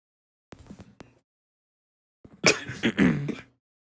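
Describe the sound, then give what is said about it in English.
Someone clears their throat twice: first a short, quiet rasp, then after a pause a louder, longer, gravelly clearing. “Clear the throat, I see.”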